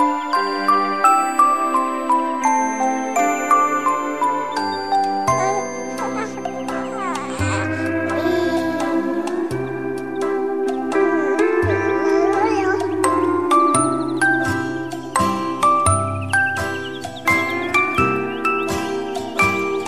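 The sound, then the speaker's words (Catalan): Soft background music meant to invite sleep: a gentle, tinkling, bell-like melody over sustained low tones, steady and calm throughout, with no voices. “I quan sona aquesta musiqueta de fons, una cançó que ens convida, una música que ens convida per anar a dormir.”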